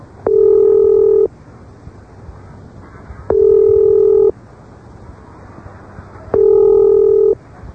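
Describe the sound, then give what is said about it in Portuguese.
Telephone tones sound while an international call from London to Brazil is being placed: three steady, loud tones of about one second each, evenly spaced with quiet gaps between them. “vamos conversar por telefone diretamente de Londres para o Brasil com o Raimundo Leonardo Bezerra.”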